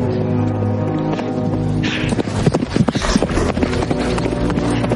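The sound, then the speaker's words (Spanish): A horse gallops away in a Western film. A quick burst of thudding hoofbeats rises over sustained music, loudest in the middle of the passage, then settles. “Entre tanto, Gideon se aleja al galope de allí.”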